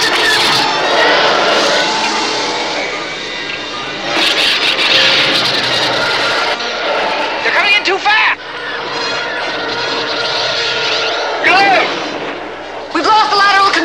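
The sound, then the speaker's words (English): Attacking Imperial starfighters in a space battle: a dense, loud roar of engine noise and blasts runs throughout, broken by several shrieking, swooping passes whose pitch sweeps quickly. “Luke and Leia must fight off attacking Imperial fighters. Here they come!”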